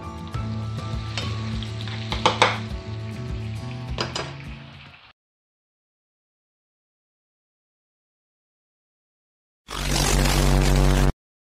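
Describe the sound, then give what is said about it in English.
Potatoes frying and sizzling in a pan, a steady bright hiss with some crackle lasting several seconds, then a long silence, then a second short burst of sizzling. “Right now, tonight, I'm even right here, as you can see, making my famous fried potatoes.”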